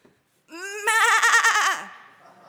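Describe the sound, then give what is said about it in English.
A person's voice imitates a goat bleating in one sustained nasal bleat. It starts smooth, breaks into a strong quavering tremolo, then drops away at the end. The call sounds somewhat sheep-like. “I did practice that. I Googled that this morning. It did sound more like a sheep than a goat. That's supposed to be a goat.”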